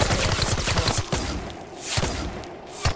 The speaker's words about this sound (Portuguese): Royce se arrastou o mais rápido possível em direção à próxima árvore, em busca de defesa. Ao mesmo tempo, mirou e atirou para assustá-los.